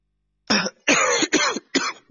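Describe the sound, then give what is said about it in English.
Four bursts of coughing and throat clearing from someone with something caught in the throat. The rasping, harsh bursts come in quick succession with short gaps between them and are loud and alone. “excuse me. Ah, God, something caught in my throat.”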